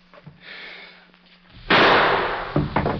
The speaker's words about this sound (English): You will draw slowly, fire once, and drop the gun.